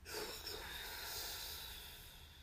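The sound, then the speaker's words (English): A slow breath is exhaled through the mouth during a guided meditation breathing exercise, making a soft, faint, airy rush that lasts about two seconds and tapers slightly at the end. “And exhale through your mouth like this.”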